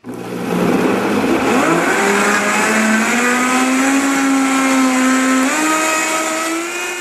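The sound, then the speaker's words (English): A Vitamix blender blends a green smoothie of spinach and fruit, its motor holding a loud, continuous whine that steps upward in pitch a couple of times over about seven seconds. “Here's the sound of a man making a green smoothie with spinach and fruit in a Vitamix blender.”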